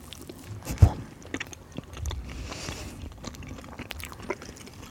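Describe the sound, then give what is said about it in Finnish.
Biting into and chewing a long-lasting pastry treat: one sharp crunchy bite early on, then quieter, irregular chewing and soft mouth noises that stay faint. “Maistetaan.”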